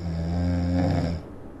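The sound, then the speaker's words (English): A person snoring: one long, low, rasping snore with a strong buzzing tone that lasts about a second, then stops and leaves near silence. “Did you have to include the snore? Well, there's a whole snoring section that follows.”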